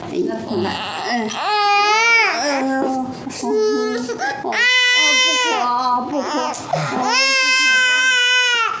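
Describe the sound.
A baby crying in several long, high-pitched wailing bursts, loud and persistent, with brief breaks between them.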